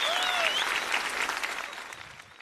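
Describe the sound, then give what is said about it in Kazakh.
An audience applauds, a dense, steady wash of many hands clapping that slowly fades, with faint high whistles over the clapping near the start. “Қанекей, дуғыл шапалақтарыңызбен.”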